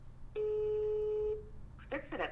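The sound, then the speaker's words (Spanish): A telephone rings on an outgoing call as one steady, clear electronic ringback tone lasting about a second, followed by a short stretch of voices. “No pudimos comunicarnos esta vez. Pero voy a intentar seguir llamando.”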